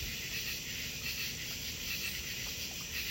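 Crickets chirping on a summer night out on a deck near a fountain: a quiet, continuous high-pitched trilling chorus pulses steadily over a soft low background wash.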